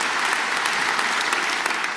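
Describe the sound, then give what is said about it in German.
Dense, steady applause from the audience in the Cologne opera house at Offenbachplatz, an even wash of many hands clapping at once with no voices above it. “Jetzt können wir auch noch mal gemeinsam klatschen,”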